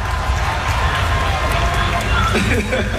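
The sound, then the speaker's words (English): Audience at a press event cheering and making noise: a dense, steady roar of many voices, loud and unbroken from start to finish. “Make some noise for that question right there.”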